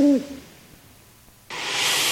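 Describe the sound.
An owl gives a single short hoot, a low tone that falls in pitch, at the very start. Faint quiet follows, then a steady hiss rises and continues.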